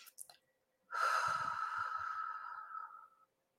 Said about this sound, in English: Last time, in. Nice long exhale.